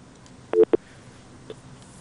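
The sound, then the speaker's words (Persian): Telephone tones as a caller's line drops: a quick cluster of short, low electronic beeps, followed after a pause by one fainter beep, with no voices. “بله خب تماسشان قطع شد.”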